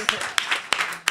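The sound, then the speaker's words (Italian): A few sharp hand claps at a stand-up comedy night, four distinct claps spaced at roughly even intervals, with a softer background between them. “Fate un applauso alla mia serata di stand-up comedy.”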